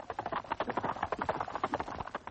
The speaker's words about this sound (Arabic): هيس هيس يا حصان.